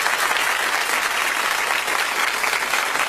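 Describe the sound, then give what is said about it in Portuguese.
A burst of applause for a woman, with dense, continuous clapping at a steady, fairly loud level from start to end. “Vamos bater palma pra ela, velho Geraldo. Vamos bater palma pra ela aqui.”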